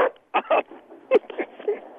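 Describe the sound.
A dog gives a few short, mid-pitched barks or yelps, spaced irregularly and fairly faint, with no other sounds around them.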